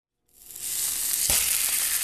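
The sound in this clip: Sizzling of salmon seasoned with salt and pepper cooking for dinner in a dorm. A loud, steady frying hiss starts suddenly after a brief silence, with one sharp crackle partway through.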